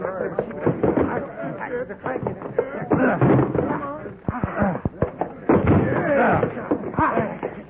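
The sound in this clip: A locked door being forced open, with a few heavy thuds and slams in quick succession while agitated voices talk over the struggle.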